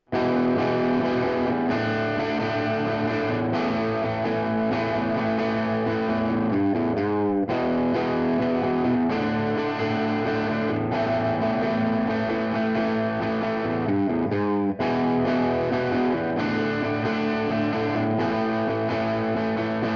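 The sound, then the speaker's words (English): A Sunn Origin 20 guitar amplifier plays its normal input alone as a heavily distorted electric guitar with a low, dark tone. Sustained chords ring out and shift steadily at a constant loud level. “Now, the Origin 20 only actually has one input, but the tilt control allows the same functionality with blending the two channel sounds together. For example, here's what your normal input would sound like on its own.”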